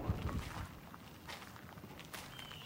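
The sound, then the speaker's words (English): Soft footsteps walking into a preschool building: a few faint, light steps over a quiet background hiss. “All right, I'm walking into Matilda.”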